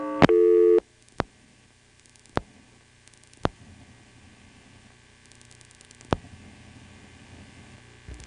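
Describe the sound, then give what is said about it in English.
Telephone exchange tones on an NX1-type switch after dialling one's own number: a short, loud harmonic tone burst, then four sharp clicks spaced seconds apart over a quiet line hum. “Another thing which is NX1-like is what happens when you dial your own number.”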